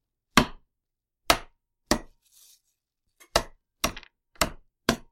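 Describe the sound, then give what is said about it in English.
Mint leaves being muddled with a heavy spoon for a Kentucky Derby bourbon cocktail with simple syrup. Seven sharp knocking thuds come at irregular intervals, with short silences between them. “Now, with the weight of this spoon, it really does make short work of this. And what you're essentially doing here is just creating these small things. You're going to muddle 2 mint leaves.”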